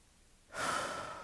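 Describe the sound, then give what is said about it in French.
One deep breath taken slowly, silent at first, then a soft, airy rush that swells in about halfway through and holds steady to the end. “Ce moment pour respirer profondément,”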